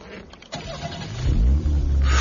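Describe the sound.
A car engine starts with the ignition key: a click, brief cranking from the starter, then the motor catches and settles into a loud, low, steady running rumble.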